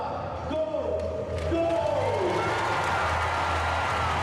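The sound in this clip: A stadium crowd roars and cheers to welcome Gout Gout, the 18-year-old Australian 200 m sprinter, with a broad, sustained wash of noise while a commentator speaks over it.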